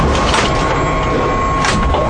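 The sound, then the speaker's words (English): A sound effect for an earthquake machine: a loud, continuous grinding rumble full of cracking and crunching texture, with a thin steady tone running through it and no talk. “I do have a sound effect for the earthquake machine, which leads me right into our next topic.”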